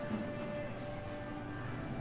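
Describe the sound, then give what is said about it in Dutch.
Industrial meat grinder and mixing machine working sausage meat, giving a steady, dense mechanical drone with a low hum and a few tonal whines, holding an even loudness throughout with no pauses. “We hebben een grote gehaktmolen. Daar komt het vlees net uit. Dat gaat nu in een grote mengmachine.”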